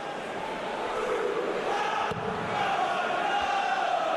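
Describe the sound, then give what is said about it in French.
Darts crowd at Blackpool keeping up the atmosphere, a continuous dense roar of many voices and cheering that holds at a steady, loud level throughout. “Et le public de Blackpool qui continue de mettre l'ambiance.”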